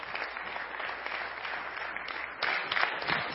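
Applause from an audience welcoming a woman invited up to share about her experiences with God's Word: steady, dense clapping that swells louder over the last second.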